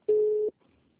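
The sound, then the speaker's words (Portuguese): A telephone busy signal after a dropped call: one steady, mid-pitched tone lasting about half a second, loud and clean, then near silence. “acho que caiu a ligação”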